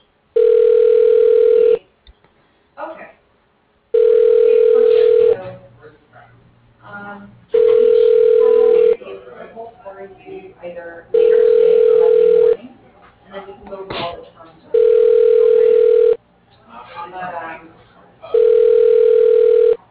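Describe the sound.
A telephone rings with an incoming call: six steady electronic tone bursts at even intervals, each lasting under two seconds, with people talking in the gaps between rings.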